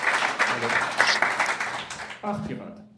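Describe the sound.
Audience applause at a live show as a performer is called to the front: clapping at moderate volume under voices for about two seconds, then fading out as a single voice carries on talking.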